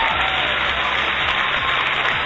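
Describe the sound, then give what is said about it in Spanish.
A small ovation from an audience: a steady, even wash of clapping that runs through the entire clip. “Una ovación chiquita.”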